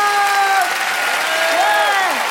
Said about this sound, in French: Préparez-vous maintenant à accueillir notre prochain artiste et faites du bruit, où que vous soyez, pour Tristan Lopin.